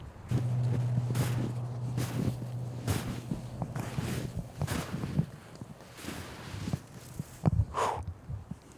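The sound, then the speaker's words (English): Footsteps trudge through knee-deep snow, a steady series of muffled crunches roughly a second apart, with wind buffeting the microphone underneath. “All right, listen to this. Snow.”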